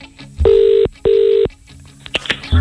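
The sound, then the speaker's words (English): A telephone number is dialed on a touch-tone keypad: two long, steady, loud tones in quick succession, followed by faint clicks and a few short blips. “Dial him up.”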